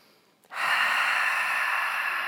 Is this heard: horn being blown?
no